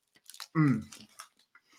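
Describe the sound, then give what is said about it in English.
Biting and chewing a cookies and cream protein bar: a few soft crunches, then a brief louder voiced murmur, followed by fainter chewing. “those come in delicious flavors, including one of my personal favorites here, cookies and cream. Got to have a nice bite here for the show here.”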